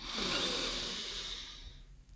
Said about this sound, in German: Atme nochmal tief ein und nochmal aus.